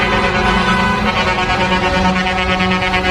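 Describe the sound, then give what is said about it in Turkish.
Air horns of eight trucks honk together in a wedding convoy along a city street in Adana, a continuous, loud, layered blare of overlapping tones that holds without a break. “8 kamyon şoförü bir çiftin düğün konvoyuna katıldı. Havalı kornaları da vardı.”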